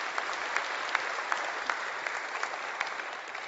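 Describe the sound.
Audience applause welcoming a speaker at a church gathering: dense, even clapping from many hands that holds steady for the whole stretch, with no voices over it.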